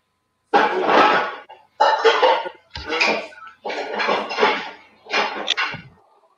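Dishes clatter and scrape as someone washes them in the background. A handful of longer rattling bursts are separated by brief pauses, with no talk over them.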